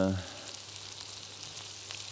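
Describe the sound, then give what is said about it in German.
Leek frying in olive oil in a pan gives a soft, steady sizzling hiss. A voice is heard briefly at the start and again at the very end. “Und auch ein bisschen Lauch geben wir hier in die Pfanne rein. Das kann man jetzt in einer machen. Hier habe ich jetzt einfach Olivenöl genommen. Da braten wir das Ganze an.”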